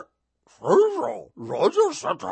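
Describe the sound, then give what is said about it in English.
A human voice imitates a dog barking with a few drawn-out, voiced woofs, clear and loud with short gaps between them. “I just stood there until the dog went,”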